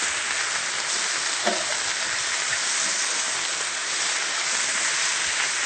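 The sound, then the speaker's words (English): Spinach sautés in a pan while it is stirred, producing a continuous, even sizzling hiss with faint scattered clicks throughout. “Stir the spinach frequently so that it gets wilted on all sides.”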